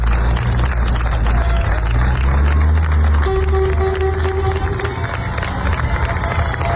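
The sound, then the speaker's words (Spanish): Townspeople cheer a farewell to military emergency firefighters after a huge forest fire, a loud, dense crowd roar with whistling and shouts, and a steady horn-like tone sounding for a couple of seconds midway. “Este es el sonido de la despedida del pueblo de Niebla, los efectivos de la UME que han estado trabajando día y noche”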